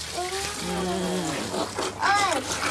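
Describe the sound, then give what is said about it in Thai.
Pig feed pours into a feeding trough with a steady, grainy rush that runs through the whole stretch, under excited voices and calls. “เทใส่ในรางอาหารตรงนู้นเลย”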